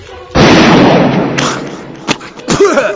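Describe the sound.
A loud gunshot-like blast with a sharp onset and about a second of rough, noisy decay, followed by short bursts of voices.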